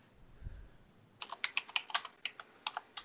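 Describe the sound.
Typing on a computer keyboard to enter a word into an app's search box. After a quiet start comes a quick, uneven run of many crisp key clicks.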